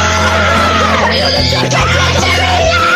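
A person screams loudly and without a break, a harsh strained shriek whose pitch wavers and shifts over about three seconds.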